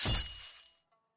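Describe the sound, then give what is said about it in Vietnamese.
A sound effect of a sharp weapon, a crossbow bolt, piercing the flesh of a throat: one loud crunching, shattering hit that decays to a faint ringing within about a second. “Tiếng vật sắc nhọn xuyên qua da thịt vắng lên rợn người.”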